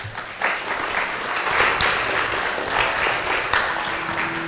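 Congregation applauding to welcome a guest pastor at a Sunday morning church service. Dense, continuous clapping holds at an even, fairly loud level for several seconds.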